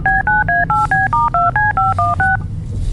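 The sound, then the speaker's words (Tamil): Telephone keypad tones as a number is dialed on a phone to call teachers: a quick, even run of many short two-tone beeps that stops, followed by a low background hum. “Ma'am அங்க உள்ள teachers கிட்ட கால் பண்ணி கேளுங்க ma'am. Okay okay, கால் பண்றேன்.”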